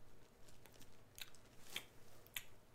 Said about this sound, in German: Ich esse gerade Weintrauben.